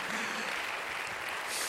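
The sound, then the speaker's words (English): Church audience clapping their hands to the Lord during a sermon: a short, dense, continuous burst of applause at an even level throughout. “Somebody clap your hands to the Lord.”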